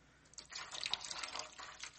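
Hot water poured into a foot bath: a steady splashing, trickling pour starts after a brief quiet moment and carries on evenly to the end, with no voices.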